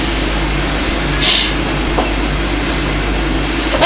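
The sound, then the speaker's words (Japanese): A blue electric train passing: a steady low rumble and broad hiss of rail noise with a faint thin whine, holding even throughout and with no voices. “あ、 青い電車。”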